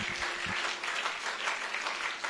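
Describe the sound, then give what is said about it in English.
Congregation clapping hands in praise during a church service, a sustained crowd of claps with a soft, slightly pulsing texture, moderately quiet and steady throughout. “Just give the Lord a hand clap of praise.”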